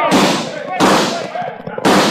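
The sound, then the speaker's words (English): Gunfire in a radio drama shootout as outlaws swoop in on a gold shipment in town: three loud, sharp bursts, each trailing off into a decaying tail, spaced fairly evenly apart. “And then they swooped down, guns blazing.”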